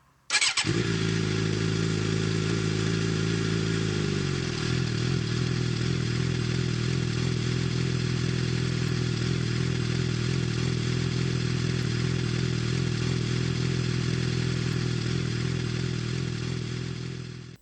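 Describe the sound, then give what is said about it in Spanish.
An old motor vehicle engine starts abruptly and settles into a loud, steady idle. Its slightly quicker early running eases to a lower, even rumble after a few seconds and continues alone until it stops. “Vamos con. al ralentí. Al ralentí. Venga, arranca la cacharra.”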